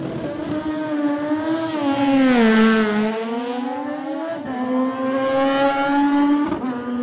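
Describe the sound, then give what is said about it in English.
Loud, continuous engine roar from a Norton WRS 588 racing motorcycle trailing smoke during a road race. The pitch dips lower through the middle, then climbs back and holds, with brief breaks near the end and no voices. “Norton, the Norton WRS 588, the Wiz Norton Racing, Norton of Peter Hickman.”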